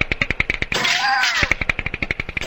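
Automatic gunfire in the video game Border Patrol: a rapid, evenly paced stream of sharp shots. A harsher, sustained noisy blast breaks in midway, then the steady firing resumes.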